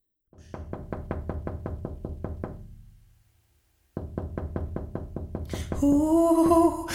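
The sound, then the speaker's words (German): Rapid, evenly spaced knocking from a ghost shut inside a lidded urn. A long run of dry taps fades out, then after a pause the knocking starts again and a bright tonal ringing joins it near the end. “Der Geist meint jetzt, es sei noch immer Mitternacht und gibt daher ständig Klopfgeräusche von sich.”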